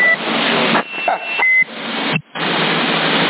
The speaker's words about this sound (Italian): mi sta partendo l'allarme della casa quando schiaccio il PTT.